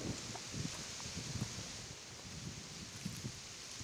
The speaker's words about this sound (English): So now you should be able to hear above my head. If that's where the sound is coming from, above my head right now. The sound of the wind in the trees.